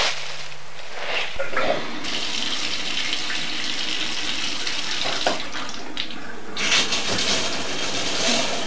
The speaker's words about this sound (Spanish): Todo con orden, formando cadena, se empezó a lavar.